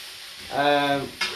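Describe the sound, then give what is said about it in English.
Onions frying and being stirred in a big pan give a steady sizzle, with a brief squeaky tonal scrape in the middle and a short burst of sizzle near the end. “So now the onions are getting translucent. They're getting a little bit of colour to them,”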